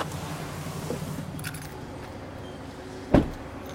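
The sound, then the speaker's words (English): Keys jingle and a car door thumps as a driver gets out of a car to refuel at a gas station. A light metallic rattle comes early, then one sharp low thud near the end over a quiet background hum. “Hold on here. Get out and fuel up real quick here.”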